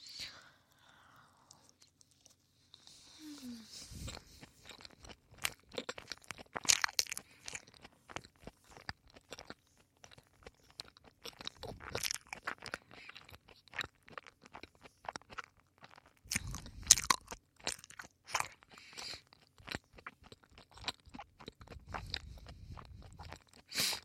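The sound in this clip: Crunching and chewing while eating meat: many irregular crisp crunches and wet bites come in bursts separated by quiet gaps, with soft whispering at moments.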